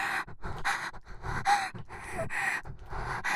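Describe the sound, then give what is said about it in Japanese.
Erotic breathing with soft gasps and pants, a rhythmic run of many breathy intakes and exhalations separated by brief pauses, fairly quiet and heard alone without speech. “愛してる、エッチな呼吸、”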